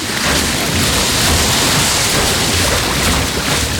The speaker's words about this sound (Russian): В чан с бельем льют горячую воду.